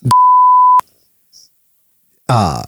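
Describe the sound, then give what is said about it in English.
A single censor beep masks a spoken name: a steady, pure mid-pitched tone lasting under a second, loud and abrupt. After a pause, a voice begins speaking. “I'll just say the name and then beep it.”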